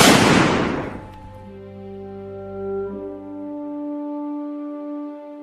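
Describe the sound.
A soldier fires a single gunshot: a sharp, loud blast that decays over about a second, followed by sustained low ringing tones that hold to the end.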